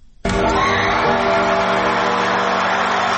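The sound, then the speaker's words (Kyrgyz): Audience and judges cheering after a dance group's performance at Asia's Got Talent in Malaysia: a loud roar bursts in abruptly after a short quiet moment and holds at a steady, sustained level to the end. “Бул Малайзияда өтүп жаткан Азия таланттарга бай сынагында адем тобу аткарган бийден кийин кызуу колдогон калыстар тобунун жана көрүүчүлөрдүн эмоциясы.”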